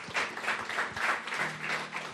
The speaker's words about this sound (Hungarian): Adjunk nekik egy tapsot.